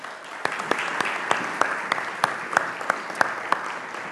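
Church audience applauding to welcome the kids pastor to the stage: steady, dense clapping from many hands, with sharper individual claps standing out throughout.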